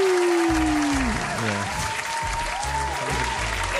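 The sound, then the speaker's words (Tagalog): Applause greets a co-host on their birthday, steady and dense for the whole stretch with no pause, with sustained tones running through it. “Yes, palakpakan muna.”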